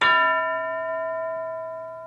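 A school bell struck once: a bright metallic clang that settles into a clear, steady ringing tone and fades slowly.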